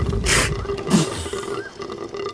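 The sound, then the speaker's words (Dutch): A whale vocalizes in low, groaning calls over a faint steady tone, broken by a few rough, roaring bursts. “Misschien is het walvissentaal?”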